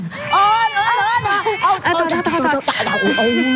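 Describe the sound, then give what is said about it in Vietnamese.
A baby cries without pause in loud, high, wavering wails with brief catches of breath between them. “Đừng có khóc nữa nha con.”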